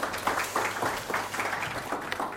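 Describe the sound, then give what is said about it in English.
Conference audience applause, a moderate patter of many hands clapping in uneven bursts that swell and ease repeatedly, staying fairly soft throughout. “It's always good to get applause before you start, because you don't know how good I'm going to be, so get that out of the way first.”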